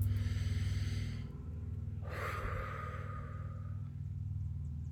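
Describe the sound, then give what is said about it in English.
A slow deep breath drawn in, a soft airy rush lasting around two seconds over a low steady hum, with no talking. “I'm going to slow down, take a deep breath.”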